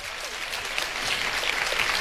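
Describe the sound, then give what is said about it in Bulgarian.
Audience applause greets the children's radio choir on its 65th anniversary at a music awards ceremony, a steady, full wash of many hands clapping with no voices over it. “Благодарим ви честито на детския радиохор, който навърши 65 години. Аплодисменти още веднъж!”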